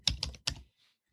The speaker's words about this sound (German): Und ich tippe einfach mal in das Suchfeld Kurzschrift ein.